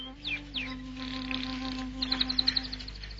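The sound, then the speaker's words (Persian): Pet birds singing: a few quick descending whistles, then a rapid run of bright, evenly spaced chirping notes, over a faint low steady hum. “پرندهات دارن میخونن.”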